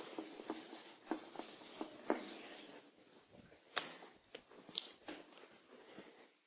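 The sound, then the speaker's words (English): Faint scratchy rubbing of an eraser removing a small drawing of a tree. Several short, irregularly spaced strokes stand out over near silence. “So I'm going to erase this little tree because I don't need it anymore.”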